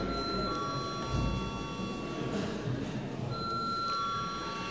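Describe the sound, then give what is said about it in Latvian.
An electric bell rings in a parliament chamber to call a vote: a steady, high, ringing tone that stops briefly partway through and then resumes, over a faint murmur of the room. “lūdzu zvanu.”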